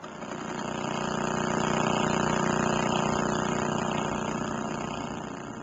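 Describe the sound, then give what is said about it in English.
Radio signal from a fast-spinning star, converted to sound, forms a dense, continuous buzzing drone with a steady tone that swells gently toward the middle and stays loud and unbroken throughout. “stars, spinning round and round and emitting a signal like a lighthouse in space. Some spin faster than others. Some spin so fast that they sound like this.”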